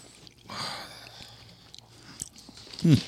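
Soft chewing of a moist meatball topped with sesame seeds: quiet, irregular wet mouth sounds and small crunches, with a sharper tick midway and a louder burst near the end.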